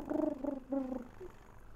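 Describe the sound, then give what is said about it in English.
A human voice imitates a creature's purring coo, a low rolling, gargly trill in a few short bursts that fades away softly. “And you can hear it's like a purring coo. Just this.”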